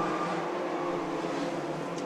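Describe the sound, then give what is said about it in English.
Race car engines roar on a racetrack with an infield, start-finish line and turn one, one car slowed and limping while others speed by. The roar holds as a steady, dense drone from start to end, with no clear pass-by. “we've got a car slowed up on the high side on the start-finish line and limping off turn one. We've also got a car on the infield down here, but we stay green. Stockwell speeds by the slowed traffic”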